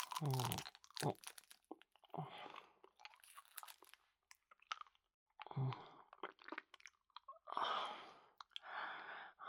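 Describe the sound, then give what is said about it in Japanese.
Crunching, crackling mouth sounds of a hard candy being eaten come in several separate bursts with quiet pauses between them, soft and wet in texture. “キスしながらこの飴舐めない？”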